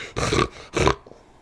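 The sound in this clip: Short-snouted dog breathing and sniffing: two loud, raspy snorting bursts, each roughly a third of a second long and separated by a short pause, followed by a faint snuffle.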